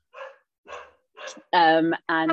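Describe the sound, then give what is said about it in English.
A pet dog woofing indoors gives five barks: three short, softer ones followed by two louder, longer, fuller woofs, with no talk over them. “That's my dog woofing, if you can hear him.”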